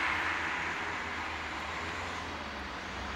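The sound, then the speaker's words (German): Diesel car driving past a roadside nitrogen-oxide measuring station, a dense, steady rush of engine and tyre noise that thins slightly toward the end. “Das ist ein Diesel, ne? Den sehen wir.”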